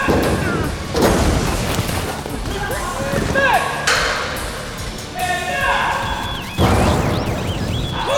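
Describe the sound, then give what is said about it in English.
Gunfire in an action stunt sequence: a few heavy booming shots burst out among thuds and metallic pings, with voices mixed in. “And she fires. Boom.”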